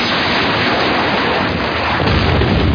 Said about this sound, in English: Launching Sidewinder missile.